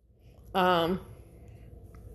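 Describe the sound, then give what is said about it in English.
Phone text message notification tone chiming once, a short, bright, buzzy tone under half a second long that dips slightly at its end, loud against an otherwise quiet background. “I don't know if y'all could hear my text message tone or not, but my bad.”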